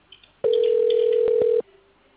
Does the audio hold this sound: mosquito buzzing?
no